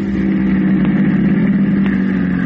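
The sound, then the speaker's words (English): A taxi cab engine runs steadily as the car pulls up in front of a cafe door, a continuous mid-pitched rumble with no voices. “Their taxi is just pulling up in front of the door.”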